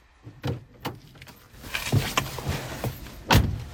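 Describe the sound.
A parked car's door and seat are handled as a man climbs into the passenger side, giving several soft thuds and clicks amid rustling movement, then a firmer thump near the end.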